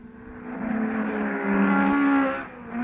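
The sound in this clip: Race car engines from auto racing give a steady, harmonic droning whine that swells louder past the midpoint and then eases off toward the end.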